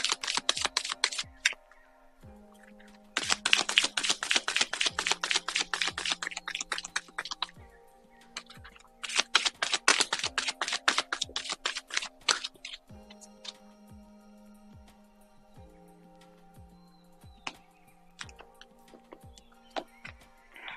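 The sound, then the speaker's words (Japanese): Oracle cards from an Animal Totem deck are shuffled and drawn: two long bursts of rapid, papery fluttering ticks, separated and followed by sparse soft taps and slides of single cards. “もう一つ。オラクルカード、引きましょう。お待ちください。”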